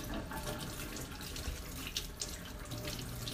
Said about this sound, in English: And then I go and wash my hands. Again, I'm always washing my hands. After handling each animal, I wash my hands.